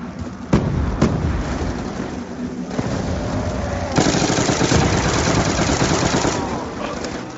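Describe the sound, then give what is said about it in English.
Explosions and gunfire from a video game: a few sharp, loud bursts over a continuous crackling, rumbling roar that lasts the whole stretch, with a stronger blast about halfway through. “Oh, come on. Explosions.”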